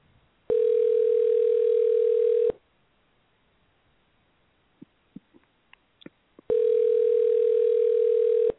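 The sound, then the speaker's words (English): Telephone line tone while calling back: two steady tone bursts of about two seconds each, separated by a quiet gap with a few sharp clicks. “Okay, let's try this again. I'm going to call him back.”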